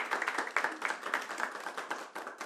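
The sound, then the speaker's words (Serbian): Applause at a kafana music evening after a singer's performance: brisk, dense clapping with a lively, uneven pulse, fairly faint and continuous, with no talk over it. “ono što moram da kažem i zašto sam ostavio ovaj aplauz jeste zbog toga što nas je djevojka itekako oduševila”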